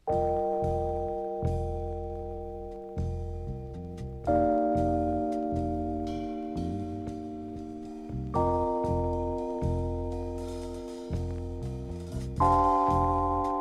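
Rhodes electric piano playing a jazz standard without vibrato: sustained chords over low bass notes, each struck and left to ring and fade before the next, changing every couple of seconds.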